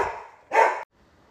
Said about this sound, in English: That was my dogs who were always protecting me.